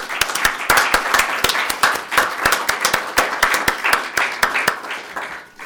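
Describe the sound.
Audience applause welcoming a speaker to a morning program on immigration, dense and even clapping that holds steady for about six seconds.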